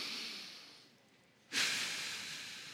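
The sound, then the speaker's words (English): A deep inhale: a breathy hiss of drawn-in air that is soft at first, then surges suddenly louder partway through and holds steady to the end, with no talking. “Put your head up. Inhale deeply.”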